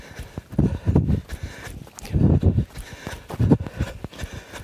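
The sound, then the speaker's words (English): A runner's footsteps cross rocks to ford a stream, with a few clusters of uneven crunching, scuffing steps separated by short gaps. “Another stream to ford here. Step over these rocks.”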